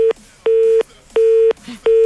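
A telephone disconnect tone sounds after a call is hung up: about four loud, steady mid-pitched beeps in an even on-off rhythm, with faint noise in the gaps.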